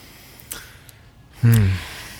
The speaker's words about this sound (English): So I took a deep breath, as you just did, and didn't say anything at first.